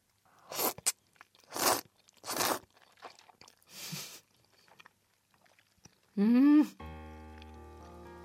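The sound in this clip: Thick noodles in a rich beef-bone and chicken broth with vinegar are eaten in a few separate noisy slurping and chewing bursts amid quiet, followed by a short tonal sound effect and a sustained tone.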